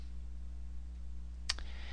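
A single computer mouse click, made while adding a class in software, short and faint, over a low steady electrical hum.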